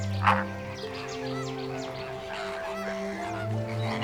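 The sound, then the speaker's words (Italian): Flamingo calling within a flock: one brief honk near the start, then faint, scattered nasal honks over steady low sustained tones. “Si considera ancora il fenicottero più attraente di tutto lo stormo.”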